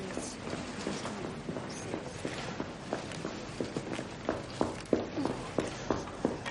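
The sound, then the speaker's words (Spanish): Footsteps of a woman running through corridors: many quick, light steps with a fairly steady rhythm that grow louder and sharper toward the end. No voices. “Se va de la sala de cálculo. Corre por los pasillos.”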